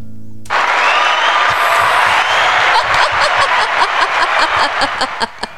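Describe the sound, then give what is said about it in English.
An audience breaks into clapping and cheering that starts abruptly after a brief hush. The loud, dense applause continues for about five seconds, the claps growing sparser and more distinct toward the end. “They're clapping for you right now.”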